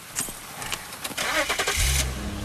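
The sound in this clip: A car engine starts, with a rush of cranking noise before a low steady rumble takes hold near the end.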